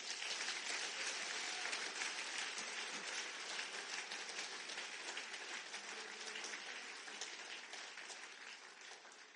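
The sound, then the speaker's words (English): A church audience claps for Jesus during a sermon, a long, steady roar of many hands that stays dense and even before easing off slightly toward the end. “Clap for Jesus.”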